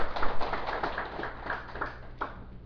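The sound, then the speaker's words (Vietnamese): Applause from the audience at a Buddhist dharma talk, a modest burst of clapping that starts strongest and gradually thins and fades. “Xin quý vị vỗ cho tràng tay.”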